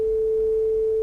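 A synthesized monochord tone for a string divided in a 2-to-1 ratio, sounding the half string: a single pure, steady note, higher than the whole-string tone, held evenly and loudly for about one second.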